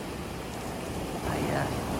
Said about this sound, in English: Just sharing a little moment with you on the beach.